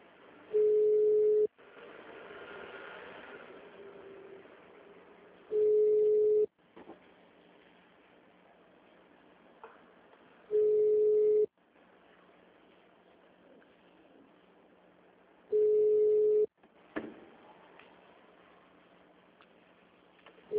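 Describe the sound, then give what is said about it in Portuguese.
Telephone ringback tone on a call: four steady one-second tones at a fixed mid pitch, about five seconds apart, with faint line noise and soft clicks between them. “Ó, tá chamando. Alô?”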